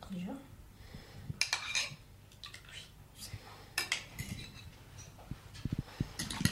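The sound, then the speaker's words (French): A utensil clinking and scraping against a bowl as flour is mixed with eggs; faint, light clinks come at irregular intervals over quiet background. “Donc on mélange la farine avec les œufs,”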